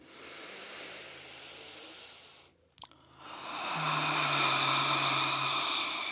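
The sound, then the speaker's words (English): Audible breathing during a yoga breathing exercise in easy pose: a soft airy hiss, a brief pause, then a longer, louder exhale hiss carrying a low hum that holds steady for a few seconds. “Nice fresh inhale, and we're going to do an audible exhale.”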